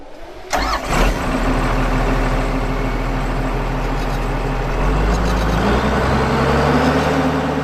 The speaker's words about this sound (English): A power haul is essentially a big tractor. We've got a 10-ton bin on the back, which is designed to collect and carry cane.